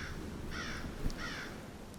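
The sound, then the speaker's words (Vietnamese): Crows cawing as a flock crosses through rain toward a village: two harsh, nasal caws, faint, over a steady low rumble and hiss. “Trước mắt lão chỉ là một bầy quạ đen kịch tụ lại thành đàn, băng qua màn mưa tiến về phía dân làng.”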